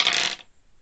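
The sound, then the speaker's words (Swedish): Dice rolled in a game: a brief rattling clatter of about half a second that stops abruptly, followed by near silence. “det är väl ingenting att vänta på, utan vi slår väl tärningen”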